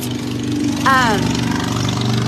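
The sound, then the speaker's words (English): A passing motorcycle gives a low, steady engine drone that runs throughout, and a brief voice sounds over it early on. “that was a motorcycle. Sorry about that.”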